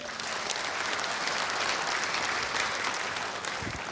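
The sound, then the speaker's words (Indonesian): Applause from an audience of Indonesian Air Force members and pilots at a stand-up comedy show: dense, steady clapping that runs loud and even throughout, with no voices over it. “Di depan-depan pilot, boleh minta tepuk tangannya.”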